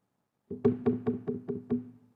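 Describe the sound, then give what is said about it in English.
Knocking on a door: six evenly spaced, hollow-sounding knocks with a low resonant body, rising out of silence and fading after the last rap. “If the door's knocking, somebody, come on, open the door.”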